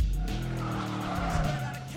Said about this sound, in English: The Mustang does donuts in the parking lot and speeds away.